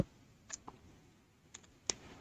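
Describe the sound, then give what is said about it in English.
A few faint, sharp clicks of a computer mouse left button and keyboard keys pressed as a shortcut, spaced irregularly over a quiet background hiss. “And again, control and shift, left click, F.”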